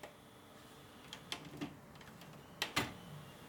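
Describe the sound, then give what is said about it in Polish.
Clicks from a recorder's record button being pressed: a few faint ticks, then two sharper clicks close together near the end, all quiet, with no voices. “Przycisk nagrywania po samym naciśnięciu wydaje dodatkowo dźwięk, proszę Państwa. Naciskam.”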